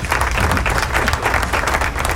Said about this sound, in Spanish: ¡Aplauso!